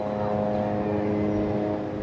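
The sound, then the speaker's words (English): Israeli drones flying overhead in Gaza make a constant whir, a continuous droning hum with layered tonal harmonics that holds steady in level throughout. “with the constant whir of Israeli drones flying overhead”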